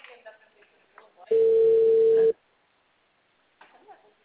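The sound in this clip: Ringback tone on an unanswered telephone call: one steady tone of about a second, with people talking before it and a voice resuming after a short pause.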